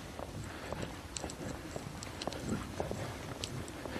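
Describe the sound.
Footsteps while hiking: many uneven crunching steps over ground and loose debris, fairly faint and irregular in rhythm, with no voices.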